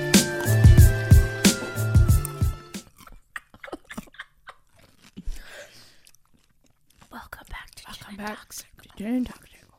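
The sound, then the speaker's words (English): Crisp crunching and wet chewing of a pickle, a run of sharp bites and munches up close, with soft whispery voices talking afterward. “Pickle ASMR. That was weak. All right, we're done eating our pickle.”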